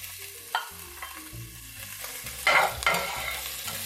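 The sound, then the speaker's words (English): Minced ginger and garlic fry in hot oil while being stirred, giving a steady crackling sizzle. A few louder scraping strokes stand out early and again near the end. No one speaks. “Okay, so that's a little brown. Here goes my minced ginger. Stir that up.”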